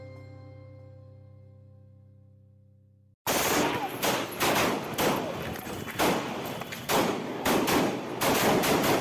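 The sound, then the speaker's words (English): Gunfire as three armed men shoot at Atiq Ahmed and his brother Ashraf: rapid, loud bursts of many shots in quick clusters, following a sustained, fading musical tone that cuts off abruptly. “three armed men were seen open firing at alleged gangster-turned-Samajwadi Party MLA Atiq Ahmed and his brother Ashraf.”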